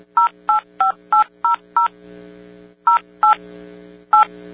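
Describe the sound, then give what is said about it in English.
Touch-tone telephone keypad tones played as a tune: a quick run of six beeps at varying pitches, a pause filled by faint hum, then two more beeps and a final one. “But what I want to do is try playing the touchtone song.”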